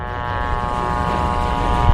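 A target drone aircraft taking off gives a loud, steady propeller-engine drone with a dense hum of harmonics that holds unbroken throughout, with no voices.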